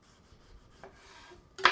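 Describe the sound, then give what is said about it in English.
Knife slicing a tomato into thin slices for a quiche Lorraine topping: soft rasping strokes through the flesh, then a sharper, louder cut at the end. “I'm going to start another tomato. Cut off the bottom and then get a couple more thin slices.”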